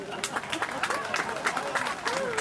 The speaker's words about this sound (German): Schönen Moment für Applaus.